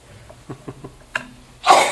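A single loud, forceful sneeze during a public meeting, preceded by a few short, breathy catches and sniffs, with the sneeze burst coming at the very end.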